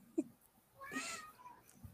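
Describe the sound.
A cat meows once in a faint, drawn-out harmonic call, with a brief soft sound just before it and no voices.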